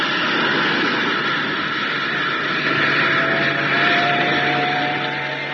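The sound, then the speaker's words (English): An aircraft taking off, a loud, dense engine roar that stays broad and steady throughout, swelling slightly toward the middle before easing a little at the end. “If they've done their job, we should start lifting. Yes, here we go. Get away.”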